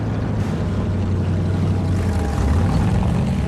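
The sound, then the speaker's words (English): A pirate motorboat's engine drones steadily as it moves up a river. The low, rumbling hum stays loud and constant throughout, with no other distinct sounds. “The boat moves into a riverbank.”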